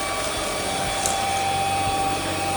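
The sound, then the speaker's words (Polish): Robot vacuum cleaner running in turbo mode, a steady whirring drone with a thin high whine, moderately quiet and even throughout, with one faint tap near the middle. “Nacisnąłem mu ten przycisk start. Ruszyła maszyna. I w trybie turbo zaczyna... Tak, zaczyna odkurzać.”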